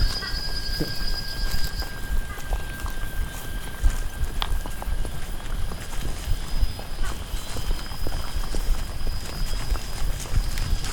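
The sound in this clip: Hooves of a quarter horse clip-clop in many steady, even beats over a constant bed of background noise, the knocking rhythm running unbroken through the whole stretch.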